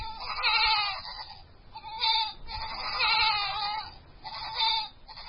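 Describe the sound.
Goats bleating in a village near a refugee camp, a few loud, wavering bleats that rise and fade in turn.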